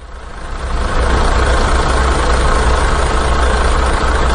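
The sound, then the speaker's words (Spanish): A truck engine idles with a loud, steady, deep rumble and broad mechanical noise. It builds over the first second, then holds at a constant level with no speech. “Ah, mira, si está aquí el camión.”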